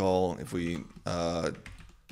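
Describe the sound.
Computer keyboard typing while a command is entered in an interactive Ruby terminal: a few quick keystroke clicks, partly buried under a man's talk.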